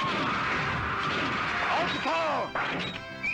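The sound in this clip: Bombs exploding in a video game produce a dense, continuous wash of loud crashing noise, with sweeping electronic tones that arc up and down near the end.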